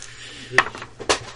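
Dice roll and clatter on a table during a naval war board game, a few sharp clicking knocks spaced apart over a quiet, faintly humming background.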